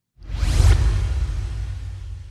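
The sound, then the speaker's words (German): A single swoosh sound effect, a broad rushing sweep that swells quickly, peaks early and then fades slowly over a low rumble, with no voices. “Okay, und ich mache jetzt dann einen Swoosh hier ein.”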